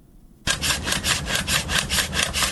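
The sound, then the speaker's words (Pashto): A hand saw cuts down pomegranate orchard trees in Arghandab district, Kandahar, with rapid, steady back-and-forth rasping strokes that start abruptly and continue evenly at a loud level until the end. “د اری دا ژغ د رغېدو لپاره نه، بلکې د ورانېدو لپاره دی.”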